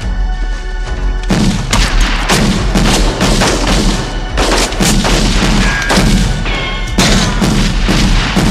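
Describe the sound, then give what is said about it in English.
Gunfire and shotgun blasts in a film scene as police open fire on a man: many loud, booming shots in quick, irregular bursts over a dense, rumbling background, with no talk. “And then all these cops just unload all these bullets. Like, he's getting, like, just lit up. Shotgun blasts, all kinds, just getting smoked up.”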